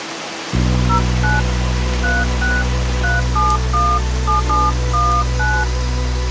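A telephone number is dialed with DTMF tones, many short, evenly paced beeps of paired pitches sounding over a loud, steady low hum.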